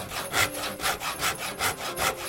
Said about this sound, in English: Then grab the saw from your toolbox and let's get to work. Your arms need to do some really wiggly sawing. Wiggle, wiggle.